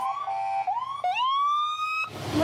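Siren of a fire department pumper truck, engine number one, on its way to a birthday drive-by: a loud electronic wail climbing in pitch, dipping and restarting a couple of times before a burst of harsh broad noise at the end.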